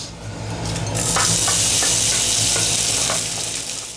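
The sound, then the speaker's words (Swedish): Baltic herring and other ingredients sizzle in a frying pan, a loud, steady hiss that swells after about a second and stays dense, with a few light stirring clicks and no talking. “Vi låter fisken och de andra ingredienserna sjuda i pannan”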